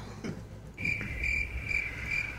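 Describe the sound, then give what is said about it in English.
Crickets chirp in a steady, high, thin trill that pulses gently and stays fairly faint, with no voices present. “That's, by the way, that's crickets going, one more question.”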